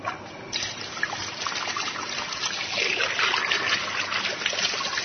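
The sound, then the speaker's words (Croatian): Water pours into a small coffee pot in a steady, continuous trickle that grows a little fuller and louder through the second half. “Za početak sipat ćemo vodu u džezvu.”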